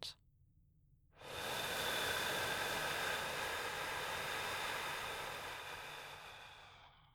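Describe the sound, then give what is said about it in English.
Slow breathing in and out: a long, steady, airy breath sound swells in after a moment of near silence, holds for several seconds, then gradually fades away. “Just breathing in and out.”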